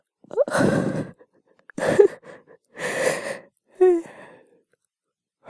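A person yawning in bed with slow, breathy, drawn-out exhalations. There are a few long yawning sighs separated by short pauses, and the last one rises into a brief voiced groan.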